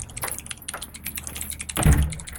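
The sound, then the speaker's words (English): Computer keyboard typing by a student programming: many quick key clicks in an irregular, steady patter, with a louder thump near the end. “this clicking you hear are keys on a keyboard”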